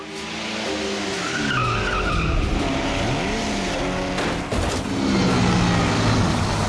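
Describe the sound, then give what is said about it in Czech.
Race car engine roaring through the final lap of the 1928 Targa Florio in Sicily, a loud, continuous drone whose pitch sweeps up and down, with skidding and tyre squeal mixed in. “Junková vjíždí do posledního kola závodu Targa Florio pro rok 1928. Stále s nadějí na celkové vítězství.”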